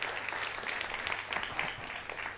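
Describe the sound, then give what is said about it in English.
A church audience gives a round of applause to thank a preacher, the clapping faint, continuous and evenly textured throughout. “So can you give him a huge round of applause?”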